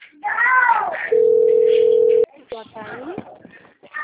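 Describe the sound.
Telephone dial tone while a call is placed: a steady, mid-pitched continuous tone lasts about a second and stops abruptly, with people talking before and after it.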